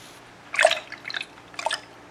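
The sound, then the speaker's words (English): Hot tap water splashes while a man shaves, in three short, quiet bursts about half a second apart, with soft dripping between them. “Is that water really hot?”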